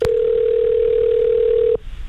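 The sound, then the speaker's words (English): A telephone dial tone as a call is placed: one loud, steady, mid-pitched tone that holds for under two seconds and then cuts off abruptly. “the Wolf, and it's time to give one lucky listener a phone call with some good news.”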